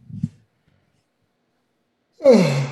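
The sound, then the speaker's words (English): A person yawns with a loud, drawn-out voiced groan that sinks in pitch as it stretches on, after a short soft breath and a long quiet pause. “what the fuck you keep yawning for?”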